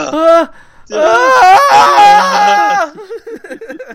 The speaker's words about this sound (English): The screams just get louder and louder, like, more intense.